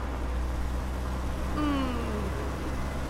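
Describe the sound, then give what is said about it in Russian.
A car moves slowly along a road, heard as a steady low rumble and broad road noise with a brief falling whine near the middle, without talk. “Автомобиль медленно движется по дороге.”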